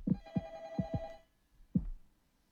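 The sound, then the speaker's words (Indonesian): A faint telephone rings with an incoming call: a thin pitched tone lasting about a second, joined by several soft, low thumps, then a quieter pause and one more thump. “ini ada telepon lagi”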